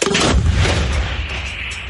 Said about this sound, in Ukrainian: тоді дергаю за шнурок і йде постріл. Гармата! Постріл!